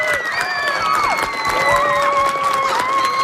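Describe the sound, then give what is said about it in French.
An audience claps loudly for three students, a dense, steady wash of applause with cheering voices rising over it throughout. “je veux qu'on applaudisse vraiment très fort les trois élèves qui nous ont envoyé des très, très bonnes questions”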